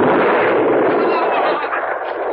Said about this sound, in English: Conrad rose from behind the wall and almost casually lifted the rifle to his shoulder and squinted down the sight. He fired.